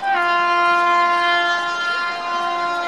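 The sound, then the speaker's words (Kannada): A train horn sounds as a train departs: a steady, sustained chord-like blast that holds for about three seconds and eases slightly toward the end, with no talking over it. “ನಮ್ಮ ರೈಲುಗಾಡಿಯು ನಿಮ್ಮನ್ನು ಗುರಿ ತಲುಪಿಸಲಿದೆ. ಎಲ್ಲರೂ ಬೇಗ ಬನ್ನಿ, ನಮ್ಮ ಗಾಡಿ ಇದೀಗ ಹೊರಡುತ್ತಿದೆ.”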